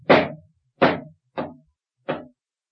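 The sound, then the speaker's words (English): Four pistol shots ring out at a wharf, sharp isolated cracks spaced roughly evenly apart, the first two louder and the last two somewhat softer, with silence between them. “What's that? Aye, Sue. There's trouble brewing. Those were pistol shots.”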